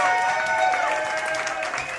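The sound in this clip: A live audience crowd applauding at the Stafford show location, with even, sustained clapping that fills the whole moment without a break.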